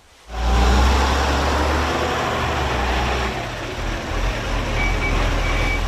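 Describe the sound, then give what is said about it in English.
A rubbish collection truck on early-morning bin day gives a steady, loud, low engine rumble that starts abruptly, and two short high reversing beeps sound near the end. “It's the sound you hear once a week, early in the morning. A dreaded sound if you've forgotten to put your bins out.”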